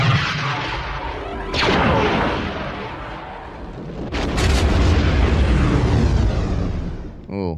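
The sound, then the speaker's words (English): A science-fiction film effect of a space station's super laser firing on a planet: a dense, roaring blast of noise with sharp surges near the start and midway, staying loud throughout before cutting off. “It is the Death Star super laser firing on Alderaan.”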